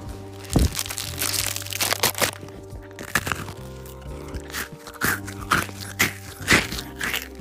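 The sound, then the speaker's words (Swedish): Crisp crunching from someone eating an Oreo cookie on a sofa, close up in ASMR style: a series of sharp, uneven crunch bursts over a low steady hum. “Om ni vill höra hur det låter när jag äter en Oreo så ska ni faktiskt få höra det nu. Det här är lite ASMR när han öppnar det.”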